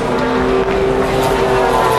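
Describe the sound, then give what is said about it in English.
Ferrari and Aston Martin race cars roar past during a race, a loud, continuous engine drone with a steady sustained tone running through it and no break between cars. “There go the AF Corse Ferraris, the Astons, more Astons,”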